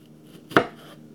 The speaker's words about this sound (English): Right now, I'm chopping down the tomatoes.